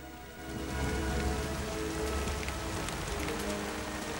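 Rain falls as a steady, soft hiss of countless drops, with a broad, even patter that swells in just after the start and then holds constant and fairly faint.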